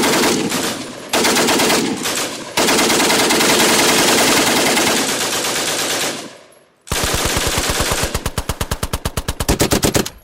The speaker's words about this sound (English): And of course, the machine gun. Who could forget about the machine gun?